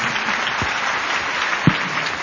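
Audience applause at a gathering: a dense, steady wash of many hands clapping at an even, fairly loud level throughout, with no talking over it.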